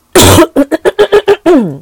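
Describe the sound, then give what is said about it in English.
Loud throat clearing: a rough voiced rasp, then a quick string of about six short voiced bursts, and a final drawn-out voiced sound that dips in pitch. “Let me clear my throat.”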